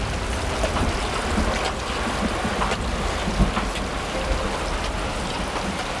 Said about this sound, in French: Il y a l'eau qui coule, ça va faire tomber la bâche.